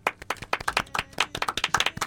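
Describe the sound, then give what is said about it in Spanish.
A few people clapping in a radio studio, with many sharp, distinct hand claps in a quick, uneven rhythm, fairly loud and with no one talking. “Así que para ella un aplauso.”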